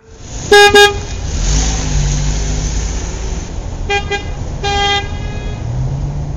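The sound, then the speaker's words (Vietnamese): Car horns honking in street traffic at a green light: two sharp, loud toots in quick succession, then a few shorter, fainter beeps later, over a steady low engine rumble. “Có tiếng còi bíp còi inh ỏi từ phía sau.”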